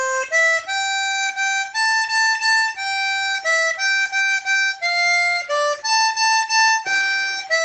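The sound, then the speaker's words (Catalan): A children's Hohner harmonica, sold with a music book for young children, plays a simple tune of many clear reedy notes, each held briefly with short breaks between, stepping up and down in pitch. “Amb el llibre ve una harmònica, que és una harmònica ja especial per nens, de la marca Hohner.”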